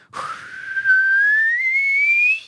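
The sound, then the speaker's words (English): A person gives a single long whistled signal during a tabletop role-playing game. It is a loud, clear tone that slides steadily upward and holds high before cutting off, with no talk over it. “makes a whistled signal.”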